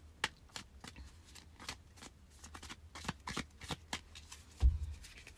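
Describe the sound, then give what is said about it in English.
Tarot cards are shuffled by hand in a quick, irregular run of crisp riffles and soft slaps, moderately quiet and without talk. “So let's pull some cards for the week ahead.”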